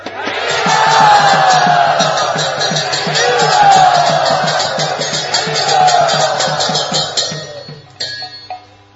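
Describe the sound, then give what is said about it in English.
A crowd cheers and shouts loudly to welcome guests at a Punyatra gathering. The sustained roar rises and falls for about eight seconds, then breaks off into scattered clatter. “It is such a great honor to all of us that you have come for our Punyatra. Everyone, please very loudly and enthusiastically welcome them.”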